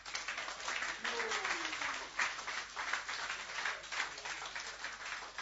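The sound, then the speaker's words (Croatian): Applause from an audience: a soft, steady patter of many hands clapping, continuous and fairly faint throughout, with no single claps standing out. “Puno hvala, jedan aplauz za Sandru.”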